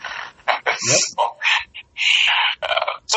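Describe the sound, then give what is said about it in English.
Birds calling outside an open window, a busy run of loud calls following one another with only brief gaps between them. “I hear birds in the background at your place. Yes, yeah, my window's open and you can hear birds there.”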